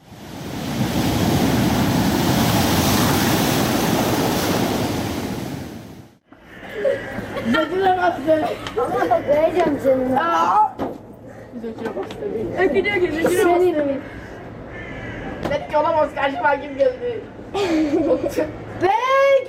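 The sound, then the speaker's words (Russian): Street and seaside ambience in Arhavi on Turkey's Black Sea coast: a steady wash of surf for several seconds, then lively chatter of many voices with bursts of laughter. “Черноморское побережье Турции. Звуки Архави.”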